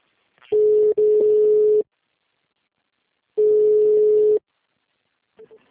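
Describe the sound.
Telephone ringback tones while a caller waits on hold for an operator: steady, loud mid-pitched rings in long pulses separated by silence, with a brief faint trace at the end.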